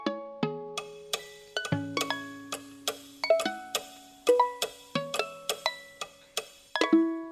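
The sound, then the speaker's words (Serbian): Clocks ticking, heard as a quiet series of bright, ringing plinks at shifting pitches in an uneven rhythm, each note decaying quickly, with no voices. “Pa šta rade ti satovi bez kazaljke? Stoji i čekaju. Možda samo malo kucaju.”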